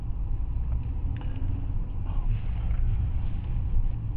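A car being driven gives off a steady low rumble of engine and road noise, a continuous, even drone with no distinct events.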